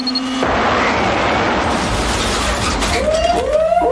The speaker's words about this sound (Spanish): La prueba del choque es el perfecto ejemplo del cruel e inhumano castigo del que fue víctima Alf